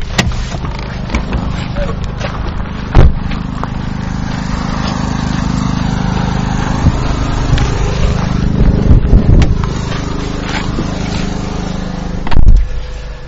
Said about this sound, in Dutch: U hoort een impressie van buiten, aggregaat en van het contesten.